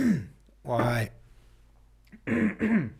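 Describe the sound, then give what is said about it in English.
Throat clearing by a speaker with a frog in the throat, heard as a few rough, voiced rasping bursts separated by quiet gaps. “Frog in the throat.”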